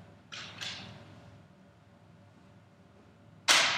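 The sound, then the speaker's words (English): Arrows shot at a target: two quick soft whooshing bursts close together, then after a quiet pause a much louder, sharper burst. “shoot for the target. Oh, shoot for the center.”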